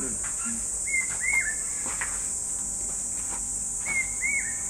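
Hawk-cuckoo calling a variant call at dusk after a hot sunny day: two pairs of short, clear whistled notes separated by a pause, moderately loud over a constant high-pitched insect drone.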